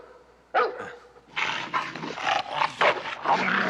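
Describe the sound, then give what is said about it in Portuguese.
A dog in a dubbed film scene barks and growls in a few loud, rough bursts after a brief quiet start. “Ei, cuidado! Segura ele! Segura esse cachorro!”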